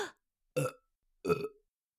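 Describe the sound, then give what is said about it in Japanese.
Heavy, thick burps from a person: a few short, deep belches in a row, separated by silence, with the last one a little longer and rougher. “本当に濃くて大量でイカ臭いゲップが止まりませんの。”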